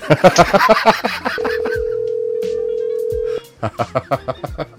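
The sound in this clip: A telephone ringing with an incoming call: one steady mid-pitched tone held for about two seconds, with people talking before and after it.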